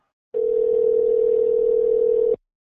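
A telephone ringback tone on the line, one steady, mid-pitched hum lasting about two seconds that starts and stops abruptly, with silence before and after.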